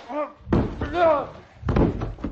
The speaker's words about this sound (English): The old Tad knocked you down.